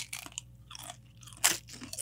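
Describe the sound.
Crunching of tortilla chips topped with dollops of guacamole, a few crisp bites and chews in irregular bursts, the loudest near the middle, with no talking.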